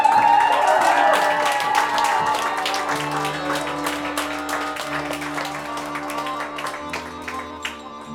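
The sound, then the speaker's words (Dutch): Applause for an accordion player at a literary evening: dense clapping over sustained accordion chords, loudest at first and then gradually thinning out. “Je mag even voor hem klappen.”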